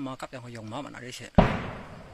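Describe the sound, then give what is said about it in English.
Gunfire from a Kachin Independence Army ambush on a military convoy: a voice speaks briefly, then a single sharp, loud blast cracks out and decays into a rumbling tail. “Fighting continues in Kachin State between junta troops and the Kachin Independence Army. You are listening to footage of an ambush by the KIA on a military convoy.”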